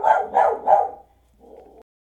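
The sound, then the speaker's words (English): The neighbor's dog, just let outside, barks three times loudly in quick succession. After a short pause it gives a fainter, shorter bark. “of course the neighbor lets the dog out right when I start my show.”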